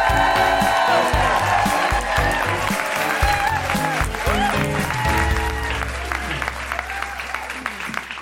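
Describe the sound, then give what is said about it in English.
A live comedy show audience for International Women's Day applauding and cheering, with sustained dense clapping and scattered whoops and shouts throughout. “Please put your hands together and make incredible woo-hooing guilty feminist noises for Michelle Dusworth!”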